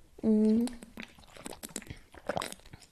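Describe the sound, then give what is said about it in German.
A person takes a drink, with a short voiced hum followed by a run of soft gulps and wet mouth sounds, quiet and irregular, with no clear talk. “Ich glaube, ich muss auch was trinken.”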